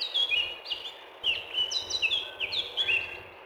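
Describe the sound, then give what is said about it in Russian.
A male blackcap sings a bright, warbling song of many quick, high whistled notes and short trills, running continuously over faint background noise. “Пение самца Славки превосходно. Его справедливо сравнивают с пением соловья.”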